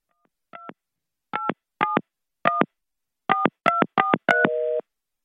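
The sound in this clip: Touch-tone telephone keypad dialing while placing a call: eight crisp beeps at uneven spacing, the last running into a longer, steady tone that shifts pitch partway through.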